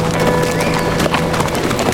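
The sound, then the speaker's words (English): Horse hooves clip-clop in a quick, continuous run of strikes as two riders head down toward a creek. “He and Dawkins rode down to the creek.”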